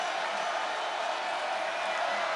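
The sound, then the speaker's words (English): A football stadium crowd roars at a TCU game, a dense, steady wash of cheering that holds at an even level for the whole short clip without a clear break. “I think a lot of the crowd was fooled and started to cheer when Green got from this angle here.”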